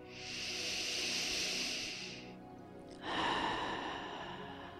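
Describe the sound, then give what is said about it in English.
A deep breath taken during a loving-kindness meditation: one long, airy inhale, a short pause, then a slower, hissing exhale. Both are soft and unhurried. “Nice deep breath.”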